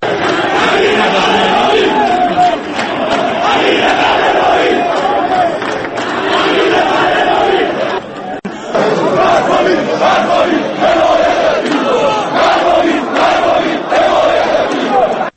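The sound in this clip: Football fans chant slogans in a stadium at an Iranian Premier League match, a dense, loud wall of massed voices that rolls on steadily, with a brief dip near the middle before the chanting surges back.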